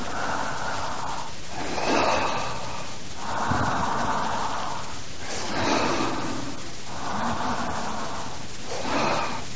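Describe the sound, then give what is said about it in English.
Slow breathing in and out during a meditation: soft, airy breaths that rise and fall in a steady rhythm over several cycles, fairly quiet and heard alone. “It's Upanishadic language, don't feel offended. I'm one of those Dalits. We breathe.”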